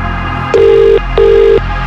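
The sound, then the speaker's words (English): A telephone rings twice during a prize call. Each ring is a steady, mid-pitched electronic tone lasting just under half a second, with a short gap between the two rings and no voices. “1 ring. 2 rings. 3 rings.”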